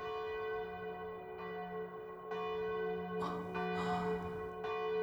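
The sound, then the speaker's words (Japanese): A church bell striking twelve o'clock, with several faint strokes over a long, sustained ringing hum that carries on between them. “12時の鐘ですね。”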